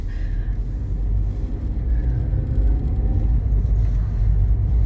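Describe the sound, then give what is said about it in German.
A car drives along with a steady, heavy low rumble from the engine and road that continues throughout. No voices are heard. “So, ich fahre jetzt mal rechts weiter.”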